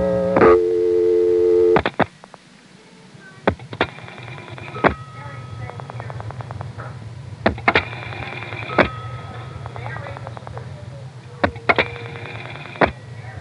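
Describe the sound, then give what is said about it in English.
Telephone line recorded while dialing 1 followed by a long string of zeros: a steady tone cuts off after about two seconds, then a low hum continues under sharp clicks and brief tone bursts spaced irregularly. “In fact, I recorded doing this, and just to draw it out, I decided to dial 1 plus a bunch of zeros. Let's start that tape now.”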